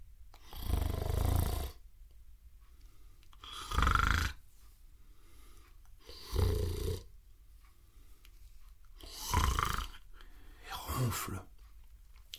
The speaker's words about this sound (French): ronfle le renard qui dort d'un sommeil profond.